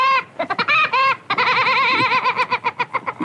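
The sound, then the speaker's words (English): A food delivery robot's arrival sound at a room: a loud, warbling, laugh-like electronic chirp made of many rapid, wobbling pitched bursts that speed into a quick stuttering run, heard alone. “That's the sound the robot makes when he arrives at your room.”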